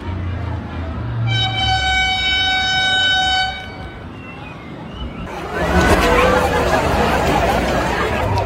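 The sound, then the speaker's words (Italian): A train horn sounds at Varenna railway station on Lake Como on a busy summer morning. It gives a steady, multi-toned blast lasting about two seconds, then fades into a louder, rougher wash of train and platform noise. “Stazione di Varenna, ore 10 del mattino. È sabato, ma potrebbe essere un lunedì qualsiasi d'estate. Gente ovunque, marciapiedi stracolmi, i binari usati come pensiline.”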